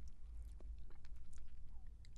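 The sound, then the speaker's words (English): Soft mouth sounds of someone eating a spoonful of super fine, sweet, chocolate-like powder that resembles fine potting soil: many faint, quick clicks and moist smacks in a steady, uneven patter, with no talking. “And I'm going to take a little spoonful of it. Super fine.”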